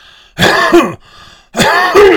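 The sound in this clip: Coughing and throat clearing from a person with COPD: two harsh, loud rasping bursts separated by a brief pause, each with a rough guttural throat-clearing quality, no speech.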